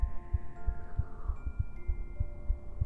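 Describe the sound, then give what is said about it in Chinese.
Soft heartbeat thumps repeat in a steady, quick rhythm as a run of low, even pulses, with a faint tonal hum held underneath. “听着我的心跳，我也感受你的心跳，”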